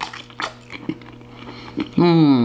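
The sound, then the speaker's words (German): Hot Frankfurter sausages being bitten and chewed: a few soft, moist bites and squishy chewing sounds, followed at the end by a voice. “Jetzt muss ich aber schnell mal Frankfurt essen, sonst werden sie mir kalt.”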